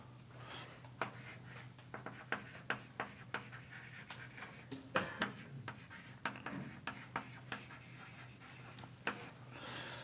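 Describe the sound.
A lecturer writes on a classroom board, making faint scratchy strokes and many small taps in an irregular rhythm over a low, steady hum, with no speech.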